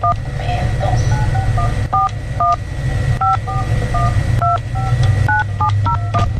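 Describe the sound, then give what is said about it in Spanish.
Telephone keypad tones sound as someone dials a contest winner's number: many short, evenly pitched dual beeps in an uneven sequence, over a steady low background rumble. “Vamos a marcarle en ese momento. Deje de hacer lo que está marcando, mi reina, porque le voy a llamar en estos precisos momentos.”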